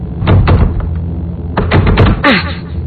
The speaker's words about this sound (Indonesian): Akhirnya aku mencoba membuka pintu WC yang satunya lagi.